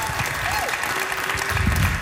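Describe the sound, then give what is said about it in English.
Applause for a comedian at a comedy festival show: a steady wash of clapping from the crowd that swells slightly toward the end, with a voice briefly heard over it. “That's Mark DeBonis, everybody. Let's give him one more round of applause.”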